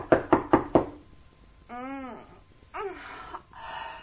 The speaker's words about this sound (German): Dann klopfte er an die Schlafzimmertür.